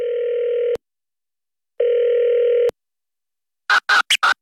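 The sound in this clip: A telephone being dialled for a call: a steady dial tone sounds for under a second, stops, returns for about another second, then a quick run of short, sharp dialing tones follows.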